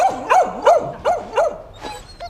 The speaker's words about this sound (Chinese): 养条那么丑的狗，那一看就是杂种